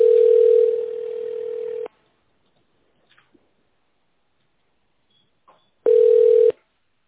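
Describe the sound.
Telephone ringback tone as a call connects to an operator: a steady, mid-pitched tone sounds twice, a long burst followed by a silent gap with faint clicks, then a shorter burst.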